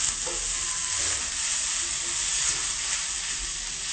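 Semolina rolls filled with boiled tofu fry in a pan, a steady, loud sizzle and crackle of hot oil that holds even throughout, with no talking.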